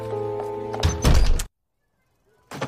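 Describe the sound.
A house door is shut with one solid, heavy thunk that cuts off a steady, tonal hum, followed by a moment of silence and then a short muffled sound.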